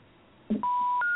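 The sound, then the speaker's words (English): Telephone keypad dialing tones as a number is entered: a soft click followed by a few clear, steady electronic beeps of differing pitch, the last one held to the end. “I have his number plugged in, so I'm going to dial him right now”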